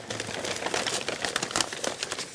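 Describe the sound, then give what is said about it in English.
Brown paper crinkles and rustles as a skull is unwrapped from it, a quiet, continuous run of irregular dry crackles. “takes her mother's skull from the brown paper and gently cradles it.”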